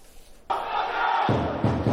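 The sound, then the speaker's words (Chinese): A crowd of football fans booing in the arrival hall of Incheon International Airport as the national team arrives in the early morning: after a quiet moment, a loud, sustained mass of voices starts abruptly and continues to the end. “洪明甫等人抵达机场后一度响起了嘘声”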